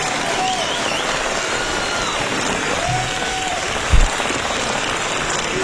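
Sustained applause from an audience, a dense, even crackle of many hands clapping at steady loudness, broken by one brief low thump partway through.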